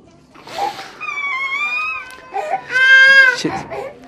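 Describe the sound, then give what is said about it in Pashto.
People cry and wail in mourning for a family member killed in an attack. Long, tremulous, high wails waver in pitch between sobbing breaths, loud and continuous, with several cries overlapping. “ویر، ژړا او انګولا.”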